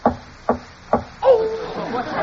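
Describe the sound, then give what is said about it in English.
Three evenly spaced knocks come from inside a roller-top desk, each sharp and short. A startled voice then breaks in and keeps talking. “Oh! What was that? There's someone in that desk. No, it was just my knees knocking, Sheriff.”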